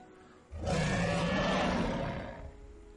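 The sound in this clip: A huge sea beast roars as it leaps from the sea: one loud, deep, rumbling roar that swells quickly and holds for about two seconds before slowly fading.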